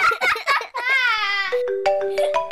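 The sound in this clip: A phone ringtone plays as a melody of sustained electronic tones that step down in pitch and hold steady. Brief bursts of voice come before it.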